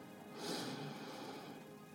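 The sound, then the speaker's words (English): A slow, deep inhalation during a guided meditation prayer, heard alone as a soft, airy rush of breath that swells early and then holds steady for a couple of seconds. “I want you to take a deep breath in for 4 seconds. Let's go.”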